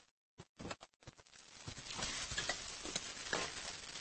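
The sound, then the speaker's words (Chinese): Vegetables stir-fried in a wok give a steady, loud sizzle with scraping and tossing patter. A few sharp knocks come first, then a dense crackling fry runs to the end. “那行，那我炒菜呢”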